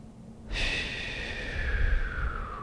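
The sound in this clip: A deep breath drawn in through the nose and let out through the mouth: a steady, airy rush that starts suddenly and lasts about two seconds, soft and even, with no talk.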